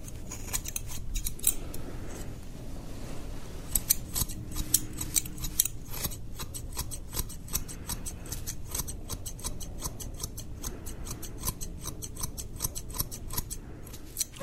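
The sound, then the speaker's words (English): Scissors snip through hair at a barber's, with many quick, crisp metallic clicks in irregular bursts, fairly faint over a soft background hiss. “I'll be cutting your hair today.”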